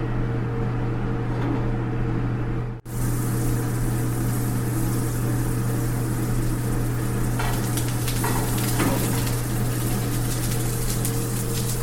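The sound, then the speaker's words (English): Food pan-frying gives off a steady, dense sizzle that runs almost the whole time, broken only by a brief dropout early on, with a low hum beneath the crackle. “being very gentle, not to break them. Really going for it. It's basically a pan fry.”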